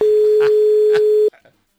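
A steady telephone dial tone holds at one even pitch while a number is about to be called, then cuts off abruptly and is followed by a few faint, short clicks.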